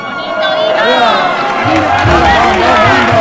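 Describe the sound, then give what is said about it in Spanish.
Crowd cheering and shouting encouragement as participants walk past: many overlapping voices raised in calls and cries, loud and sustained, forming a continuous excited din. “El público se jalea al caminar de estos compañeros.”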